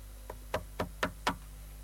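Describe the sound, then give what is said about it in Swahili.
Knocking on a door: five quick, evenly paced raps, the first softer than the rest, faint and with no voices. “We piga hodi kwanza. Mie ntasema bure, we upige hodi.”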